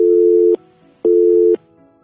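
Telephone busy signal on a listener's call-in line to a radio studio: two steady, mid-pitched tone pulses, each about half a second long, separated by equal silent gaps, heard alone.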